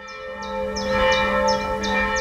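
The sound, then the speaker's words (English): A single church bell peals a monotone call to evening prayers in Magdeburg, Germany. A sustained ringing hum is marked by bright, evenly spaced high strikes, holding a steady loudness throughout. “Here in the eastern city of Magdeburg, the monotone peal of a single church bell calls a modest flock of parishioners to evening prayers.”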